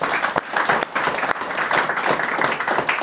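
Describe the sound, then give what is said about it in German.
An audience applauds with lively, uneven clapping that swells and dips in small surges while staying fairly loud throughout. “Ey, auch da mal Applaus, ne”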